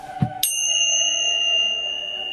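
A bell rings with a single bright strike that sustains in a long, clear, shimmering decay. A soft low thud comes just before it, and there is no talk.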